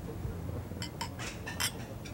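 Glasses clink in a toast to an upcoming show. A few light, bright chinks come in quick succession over a low background murmur.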